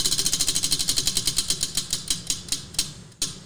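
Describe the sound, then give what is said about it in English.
Rapid mechanical ticking of a spinning wheel: many sharp, evenly paced clicks whose spacing gradually widens as the wheel slows, heard on its own without talk. “You can spin the wheel.”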